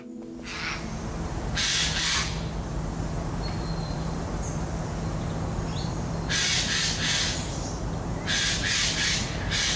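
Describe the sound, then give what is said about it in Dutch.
Two Eurasian jays call by a stream near Den Bosch, giving a few harsh, rasping screeches in separate bursts over steady background noise and a low, constant hum. “Bij de Essenstroom onder Den Bosch hoort hij niet zoveel vogels meer, maar wel overduidelijk 2 gaaien die volgens hem aan het overleggen zijn”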